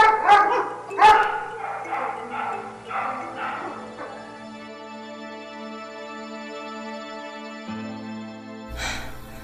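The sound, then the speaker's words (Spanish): A pack of wild dogs barking: a few sharp barks and yips in the opening seconds, then a long stretch of sustained tones with a brief burst near the end. “Vigiladas en todo momento por un batallón de perros salvajes.”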